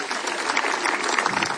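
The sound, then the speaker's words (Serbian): An audience applauds the 35th anniversary of the Kastav Cultural Summer festival, a dense, continuous wash of many hands clapping at a steady level. “pa i to merita, teh 35 let merita vaš pljesak. Čijete se na pljeska večeras, ja vam govorim.”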